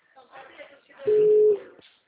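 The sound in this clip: A single steady telephone tone, like a ringback beep while a call is being placed, lasting about half a second between stretches of people talking.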